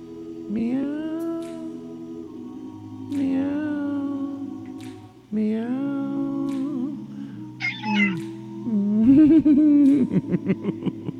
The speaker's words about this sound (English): What was that, Steve? He just meowed.